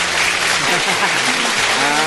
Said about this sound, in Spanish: Y también, por supuesto, otro gran aplauso